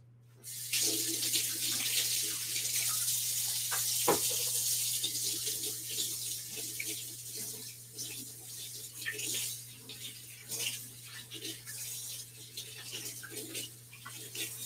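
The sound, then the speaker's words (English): Running water from a sink tap as someone washes their hands, a steady rushing splash that holds evenly for the whole stretch with small shifts in the spatter. “I'm going to wash my hands really quick.”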